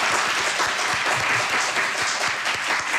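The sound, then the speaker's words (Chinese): Dense, steady audience applause thanking a guest expert at the close of a health talk session. It is continuous and fairly loud for three seconds, with no voices over it. “今天我们的节目就到这里了，我们要再次把掌声送给宋飞主任，谢谢您。”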